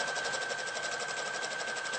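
A sewing machine runs a straight stitch to close a gap along the bottom of a seam, giving a steady, even whir with fast rhythmic pulsing that holds throughout with no talk over it.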